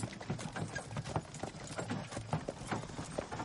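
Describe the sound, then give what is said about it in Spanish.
Clip-clop of horse hooves from a horse-drawn carriage travelling between fields: many quick, rhythmic hoof strikes in a steady, even beat, at a moderate level throughout. “El carruaje va entre campos.”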